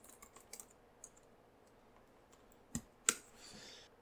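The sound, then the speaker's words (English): Faint keyboard typing as team names are written down, sparse scattered key taps followed by two sharper clicks near the end. “Right, I'm writing down all the team names.”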